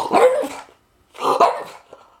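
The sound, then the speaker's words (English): French bulldog barking: two short, mid-pitched bark bursts separated by a brief silence, the second trailing off into a faint little yip. “my French bulldog, my crime-fighting canine, Mr. Gatsby”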